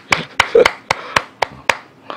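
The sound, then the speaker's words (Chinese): Hand claps of applause from people, as a sharp, evenly spaced series of single slaps with short pauses between them, fairly loud and dry. “我特别想把我个人的掌声送给非常真诚的丁炳峰董事长。”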